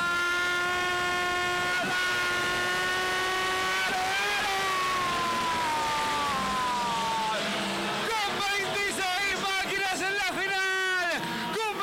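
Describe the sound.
Engines of 850 Group 1 class race cars starting a final: first a steady droning engine tone, then many engines revving up and down in loud overlapping waves, with a voice speaking over the noise.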